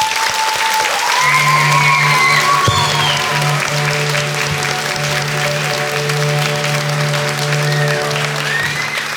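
Children clapping to save a fairy in a storybook tale: a sustained, loud crowd of applause that runs for about nine seconds beneath a held musical chord and faint gliding, whistle-like tones.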